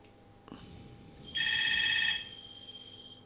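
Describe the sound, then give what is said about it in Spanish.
A telephone rings with an incoming call: one faint, warbling electronic ringtone burst of under a second, rising out of a low steady hum and soft background noise. “Parece que tenemos una llamada, chicos, os la voy a pasar.”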